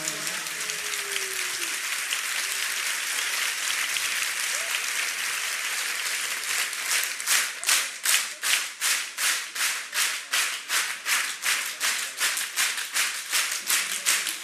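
A crowd claps at a religious birthday celebration. Dense, noisy applause gives way to loud, steady rhythmic clapping in unison that keeps an even beat to the end.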